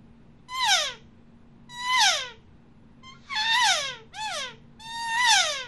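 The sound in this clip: Five raspy, nasal elk calls made by inhaling through a sucked hand call, each a high whining note thick with harmonics that slides downward, spaced by short pauses and clear against a quiet background.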